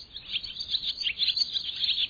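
Barn swallows give rapid, high twittering calls, a continuous run of thin chirps and trills that is fairly faint and keeps going without a break.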